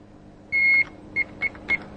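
Electronic beeps from a medical monitor switched on and connected to a patient: one longer high tone followed by three short, evenly spaced pips, clean and fairly faint over a low hum, with no talk.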